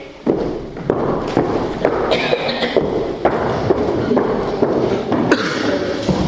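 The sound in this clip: Footsteps of a speaker walking over to an audience member at a talk, a run of dull thuds at a steady walking pace over a constant noisy background.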